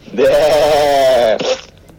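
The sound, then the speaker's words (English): A human voice imitates a sheep bleat for a LEGO film's lamb sacrifice scene: one long, loud, wavering nasal bleat, then a brief, softer second bleat. “The film's sound effects are from LEGO Studios, which obviously did not come with a suitable sheep recording, as evidenced by the human imitation used in the chilling lamb sacrifice scene.”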